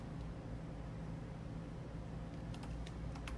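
Faint keyboard typing as a message is written: a few soft, quick clicks in the final second over a low, steady background hum.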